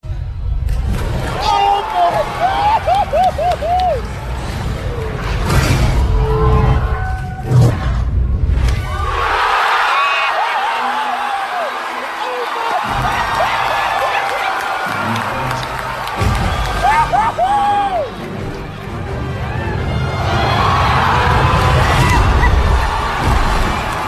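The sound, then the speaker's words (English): A movie audience erupts in joy at a Thor scene: loud, sustained cheering, shouting and whistling from a large crowd, dipping a little in the middle before swelling again. “it's just an uproarious just expression of just like joy that you hear from this audience at this moment”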